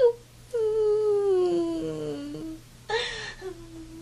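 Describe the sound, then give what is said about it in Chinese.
A young boy crying sadly: a short whimper, then a long wavering wail that slides steadily downward in pitch, followed by a brief breathy sob near the end. “一转身，小鹏就伤心地哭了起来。”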